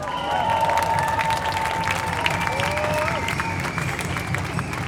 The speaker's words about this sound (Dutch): Een groot applaus voor Nina Boelsens.